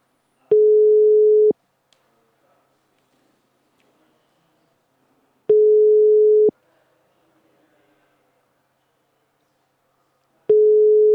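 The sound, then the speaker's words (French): A ringback tone sounds while a call is placed to a mobile phone: three steady, mid-pitched one-second beeps, each followed by about four seconds of silence. The last beep is cut short, and no voices are heard. “On essaye d'appeler.”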